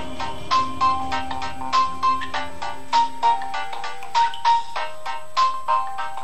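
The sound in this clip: A phone ringtone sounds for an incoming call: a bright electronic melody of short repeated notes in clusters, steady and loud, with no voices.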